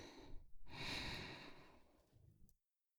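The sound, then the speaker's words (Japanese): Slow, deep breathing, faint and airy, with a short breath followed by one long, drawn-out breath that fades gradually and stops abruptly. “そのまま深く呼吸を続けて、”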